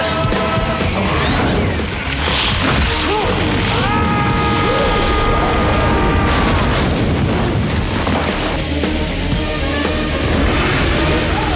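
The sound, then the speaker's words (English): A chandelier crashes down on top of a man in The Scorpion King, a loud, dense barrage of heavy crashing and booming that stays intense throughout, with ringing tones mixed in. “The speechmaker finds himself in the middle of the chandelier as it lands on top of him.”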